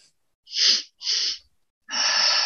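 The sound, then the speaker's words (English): Deep breathing during a breathwork exercise, with a full breath drawn into the chest and then released. It comes as three loud, airy rushing breaths separated by short silences, with no talking. “a full breath into the chest. And with that exhale, allowing a full release”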